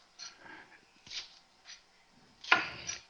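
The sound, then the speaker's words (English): A light, sharp ceramic knife chops green onions in a few soft, quick strokes, faint cutting and scraping sounds with the last stroke the strongest. “so I just chopped these green onions down real quick”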